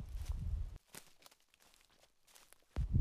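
Footsteps walk into a meadow: faint, soft rustling steps, with denser rustles at the start and the end and a few quiet crackles in the hush between them.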